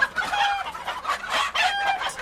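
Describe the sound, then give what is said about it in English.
Hens cluck in a hen house, a busy, continuous stream of overlapping clucks broken by a few sharper, higher calls. “the entire hen house had a sit-down with me and my hen”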